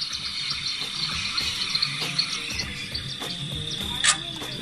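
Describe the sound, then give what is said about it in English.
Night insects chirp and trill in a dense, steady chorus as ambience from a boar hunting video game, with faint low rustling underneath and one brief louder chirp near the end. “See, this is the hunting boar one, so you can hear the boars in the background.”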